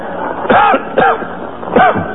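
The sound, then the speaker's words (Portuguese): Three harsh, loud coughs from a person with a persistent cough, the first two close together and the third after a short pause. “Raio, parte esta tosse. Já tomei um balde de xarope de groselha bem gelado para ver se melhora, mas não há meio.”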